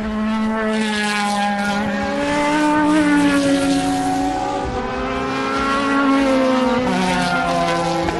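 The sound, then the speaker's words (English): A Ferrari race car roars past at the Le Mans circuit on the inside of the Dunlop esses, its loud harmonic engine note sustained through the whole clip, with the pitch shifting as it passes. “It's one of the closest points you can get on the circuit as a Ferrari comes by.”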